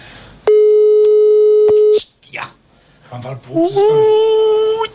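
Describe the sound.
Telephone busy tone after a mobile call loses coverage: one loud, steady electronic tone lasting about a second and a half, followed by voices and other noise.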